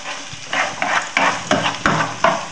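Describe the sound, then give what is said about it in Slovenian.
Onion fries golden in hot oil in a pan, a loud, constant sizzle broken by repeated scraping strokes as it is stirred in an even rhythm, with no talk. “Tako, zdaj bom si grel olje v ponvi in v olje bom pražil čebulo. In to zlato rumeno pražim.”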